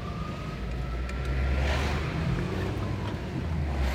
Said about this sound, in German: Hier ein bisschen Atmo von der Autofahrt.